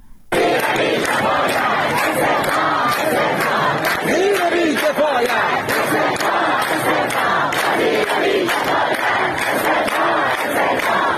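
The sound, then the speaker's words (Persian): A crowd of protesting teachers at rallies in Shiraz and Sanandaj chants slogans, many voices shouting loudly and continuously throughout. “این بخشی از صدای معترضان در شهرهای شیراز و سنندج است.”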